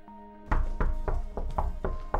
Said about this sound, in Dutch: kloppen ze op mijn deur